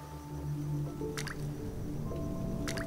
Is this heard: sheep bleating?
no

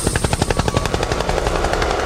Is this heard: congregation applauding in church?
no

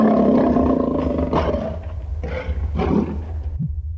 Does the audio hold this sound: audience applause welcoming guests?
no

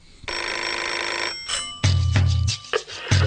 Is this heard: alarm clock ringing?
yes

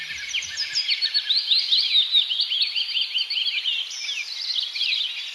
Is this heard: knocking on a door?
no

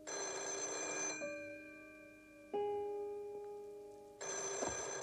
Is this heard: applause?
no

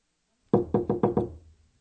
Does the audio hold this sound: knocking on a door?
yes

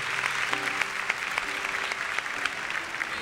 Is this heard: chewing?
no

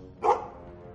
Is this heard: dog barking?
yes

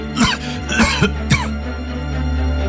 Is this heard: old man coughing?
yes

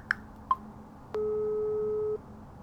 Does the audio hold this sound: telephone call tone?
yes

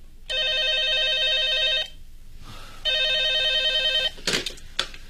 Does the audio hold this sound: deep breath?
no

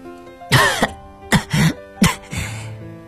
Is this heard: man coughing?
yes

